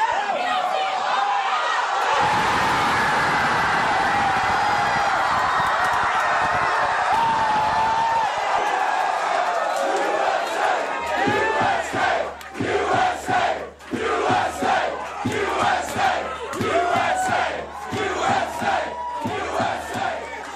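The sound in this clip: A crowd in The Amsterdam bar during a US versus Wales football match first gives a loud, continuous roar of cheering. The sound then turns into a steady, rhythmic chant with regular sharp beats.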